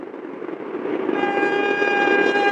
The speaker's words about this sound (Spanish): Ese es un tren de la fase A.